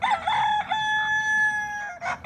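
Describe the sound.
A rooster crows in one long, loud, sustained call with a steady, bright tone and no talking, with shorter bursts of its voice at the start and end.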